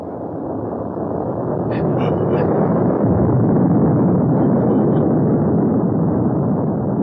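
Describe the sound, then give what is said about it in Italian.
Deep, continuous rumbling roar of a huge Tolmekian airship making an emergency landing in the animated film Nausicaä of the Valley of the Wind, a loud, steady low drone that builds slightly and holds. “È una delle più grosse navi di Tolmeichia. È in atterraggio di emergenza.”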